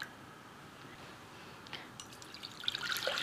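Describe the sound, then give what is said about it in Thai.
Coconut water trickles softly as it is poured through a strainer to catch bits of coconut shell, a faint liquid sound that swells into clearer splashing near the end. “กรองนิดนึงเผื่อมีเศษของเปลือกมะพร้าวอยู่ค่ะน้ำครึ่งลิตรคือ500 ml”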